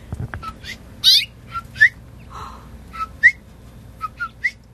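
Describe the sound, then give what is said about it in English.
A mother bird at her nest gives loud, high whistled chirps. Short bright notes are repeated many times in an irregular rhythm, with brief silences between them. “Come back in. It's okay. It's just me. Come on. Get back in your nest, Mom. She'll just hop right back in when she hears me talk.”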